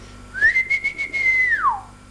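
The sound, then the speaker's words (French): A person whistles at daybreak to call a dog: a single long, clear whistled note that climbs quickly, holds a steady pitch for over a second, then slides downward and fades. “Dès la pointe de l'aube, il siffla son chien Mouret”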